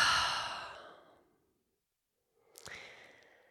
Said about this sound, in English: And then let's take a deep, full, long breath together. Inhale. Open the mouth and exhale.